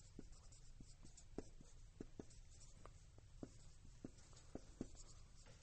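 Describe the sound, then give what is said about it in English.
A word being written down by hand: a faint, steady series of short scratchy strokes and light taps, repeating at an uneven rhythm. “So let me just write this word down.”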